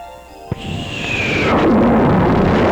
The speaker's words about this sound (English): Wow, it just dropped a bomb.